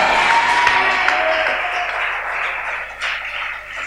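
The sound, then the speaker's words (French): A church audience cheers and applauds in acclamation of God during a sermon. The sound is a dense, sustained wash of clapping and crowd noise that eases slightly toward the end. “Acclame Dieu. Vous voyez, c'est prophétique.”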